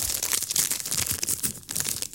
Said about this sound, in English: hold on, these are Foxy's Crunch Creams. Very nice, shouldn't be having them